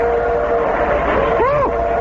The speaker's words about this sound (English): The train went right through.